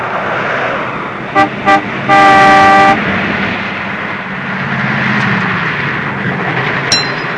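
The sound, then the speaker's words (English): Car horn honks from a car approaching a three-station toll booth on a wide, flat country road: two short blasts, then one longer steady honk, over a low vehicle rumble. “The car rips out of the driveway as three hired men scramble into a second car. The scene changes to a wide, flat country road. We see Sonny's car round a bend to approach a three-station toll booth.”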